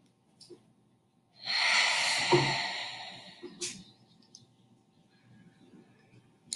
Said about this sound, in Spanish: Ahora, inhala por la nariz y exhala por la boca.